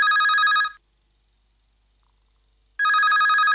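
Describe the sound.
A telephone rings with an incoming call. Two loud, bright trilling rings are separated by about two seconds of silence.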